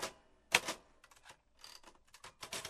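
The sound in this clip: Typewriter keys clacking out a quick note, with loud, irregular bursts of sharp strokes separated by short pauses, heard alone without any voices.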